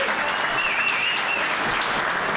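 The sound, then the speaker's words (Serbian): Audience applause at a live event: dense, steady clapping from a crowd that holds at an even loudness for about two seconds, with no clear voices on top. “Aplauz, ljudi.”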